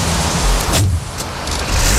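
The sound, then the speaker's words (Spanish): A diesel car engine starting: a loud, dense rumbling roar that dips briefly partway through and then swells again, with no voices. “Uy, se arranca. Eso no es eléctrico. Tiene que ser un coche eléctrico. En Copenhague tiene que ser un coche eléctrico, hombre. Este coche es de gasoil, por lo menos.”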